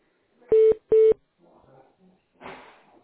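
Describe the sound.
Telephone call-transfer tones: two short, loud beeps of equal pitch in quick succession, then faint clicks and line noise.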